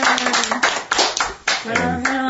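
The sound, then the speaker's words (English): Applause from a group of people: steady, dense hand clapping that carries on throughout, loud, with brief voices mixed in among the claps. “so I'd like to give us a little applause for Ron.”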